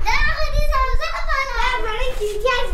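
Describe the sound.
Children's voices ring out as they play in snow-covered streets, lively shouting and chatter with rising and falling pitch, fairly loud and continuous throughout.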